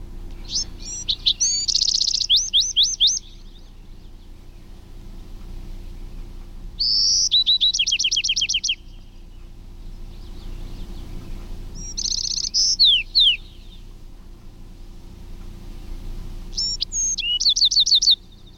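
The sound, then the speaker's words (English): An adult wren sings four crisp, high, rapid song phrases separated by pauses of a few seconds, with a steady low background hum underneath. “that was the adult wren”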